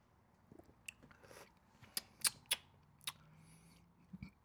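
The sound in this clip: Faint, sporadic slurping sips and small clicks come from a can of Tropical Fantasy champagne soda, heard alone with no talking.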